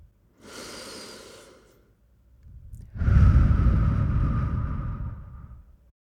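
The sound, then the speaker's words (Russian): A deep breath in and out during a guided relaxation exercise: a soft inhale, a pause, then a longer, louder exhale that slowly fades. “Закрыть глаза и сделать глубокий вдох и выдох.”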